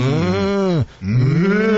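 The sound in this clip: A human voice imitates a cow with two drawn-out, low, mooing calls separated by a brief gap. The first sags at its end and the second starts low and swells upward.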